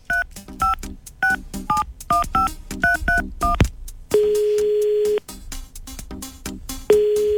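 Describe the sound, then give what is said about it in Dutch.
A telephone number is dialed as a quick, uneven run of bright keypad DTMF beeps, then a long, steady line tone sounds for about a second, falls silent, and starts again, with no voices. “We gaan direct even live bellen met de jongens. We kunnen even proberen met Bede gaan bellen. Wacht even proberen.”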